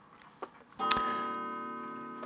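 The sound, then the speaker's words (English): A grandfather clock chimes the hour. One deep, resonant strike rings out after a soft tick and decays slowly with a long, humming tail. “9 o'clock, Grandpa Skelton's clock chiming.”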